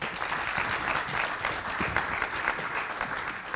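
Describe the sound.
Audience applause welcoming an associate professor of lactation research as she is introduced to speak: dense, steady clapping from many hands that holds at an even level for the whole stretch.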